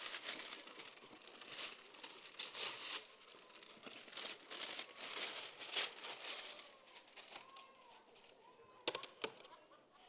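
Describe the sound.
Paper crinkles and tears as gift wrapping is ripped open, a long run of many rustling, crumpling bursts that come in uneven surges.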